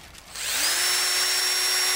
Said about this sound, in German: bohrt Löcher in die Stämme von Rieslingreben